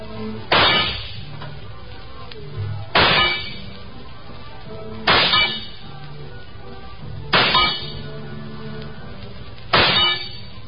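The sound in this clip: Five rifle shots at a carnival shooting gallery, each a sharp crack with a metallic clang from the struck target. They come at roughly even intervals of about two seconds over continuous background noise.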